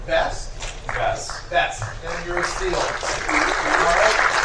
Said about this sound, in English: Ooh, round of applause for Pyra.